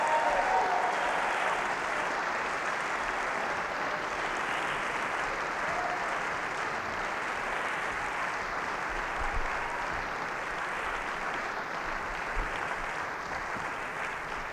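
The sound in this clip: A concert audience at an evening Bluegrass Week show in Augusta applauds in a long, steady wave of clapping to welcome the coordinator and staff, holding an even, dense level throughout.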